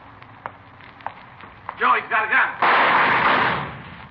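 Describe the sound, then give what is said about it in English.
Gunshots in a 1954 Dragnet radio drama shootout: a few sharp cracks, then brief voices and a louder blast with a short noisy decay. “Joe, he's got a gun. Joe, you all right? Yeah, thanks to this mailbox. I saw him pull a gun, thought sure he got you. Well, he didn't miss by much.”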